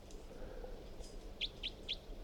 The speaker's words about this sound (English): So recording bird 362.